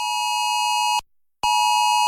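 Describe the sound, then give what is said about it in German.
Mobile phone emergency alert tone from a national warning-system test in Luxembourg, sounding as a loud, steady, harmonically rich beep that cuts out briefly and then resumes at the same pitch. “Am Montag führt Elu Alert einen nationalen Test der Sirene auf dem Handy durch. Nicht erschrecken.”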